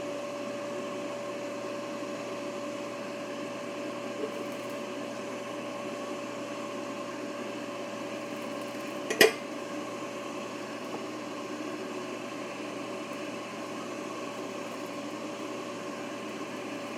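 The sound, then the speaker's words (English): An air fryer runs with steak fries inside, giving a steady fan hum with a faint tonal whine that stays constant. A single sharp click breaks it near the middle. “Open the air fryer and put the potatoes in. Close it. Okay, in go these steak fries. Listen to this. I don't know if you can hear that or not, but in they go.”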